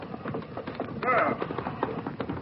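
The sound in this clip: Galloping horse hooves of a rider in a Western setting, a fast, rhythmic clip-clop running throughout, with a voice briefly heard over it.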